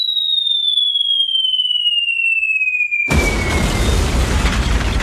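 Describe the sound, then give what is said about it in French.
A missile in a video game whistles in with a high tone that falls steadily in pitch for about three seconds, then a loud explosion bursts into a broad, rumbling roar that fills the rest. “Attends, parce que je peux même tirer un missile sur nous, tu vois, pour qu'il revienne.”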